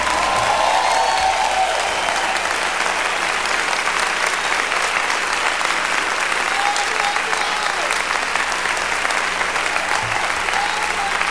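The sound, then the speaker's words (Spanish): An audience applauds loudly in praise of the Lord, a dense, steady roar of clapping that holds at an even level for the whole stretch without a break. “Aplaudan fuerte aplauso al Señor.”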